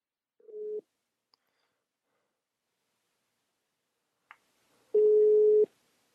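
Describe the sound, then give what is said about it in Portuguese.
A telephone busy tone sounds after a dropped call line. Two steady mid-pitched tones stand alone: a short one, then a long silence, then a longer, louder one. “Desculpe, a linha caiu de novo.”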